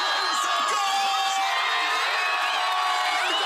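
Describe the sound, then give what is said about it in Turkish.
Loud, dense cheering and whooping from thousands of football fans celebrating Morocco's historic World Cup win in a packed square in front of giant screens, a steady roar with scattered shrill shouts throughout. “Geç saatlere rağmen meydanları dolduran binlerce futbolsever dev ekranların önünde tarihi zaferi coşkuyla”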